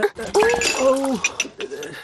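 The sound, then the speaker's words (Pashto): Dishes clink as a stack of crockery is carried and a bowl of yogurt is handed over at mealtime, a few light clatters and knocks scattered under a voice. “اوهو، داسې کوي، دومره لوښي دې یو ځای په لاس کې نیولي. لالا دا د مستو کاسه رانه در واخله.”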